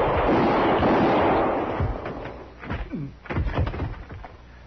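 Gunshots from a 1951 Western radio drama gunfight: a loud blast with a long rumbling tail, then a few quieter, sharper reports.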